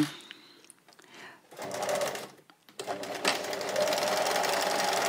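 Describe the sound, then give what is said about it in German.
A sewing machine stitches a seam on a garment, sewn left on left for a worn look and then reversed back along the same seam. After a few quiet clicks it breaks into a steady, busy whirring run with one brief pause. “So, jetzt bis zum Schluss hier nähen. Zack, einmal umdrehen auf der gleichen Naht.”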